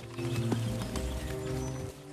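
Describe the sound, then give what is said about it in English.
An officer leads a brown horse at a camp, and its hooves clip-clop in a few soft, unhurried thuds under a sustained tonal hum. “Ned watches with intense concentration as an officer leads a brown horse towards them.”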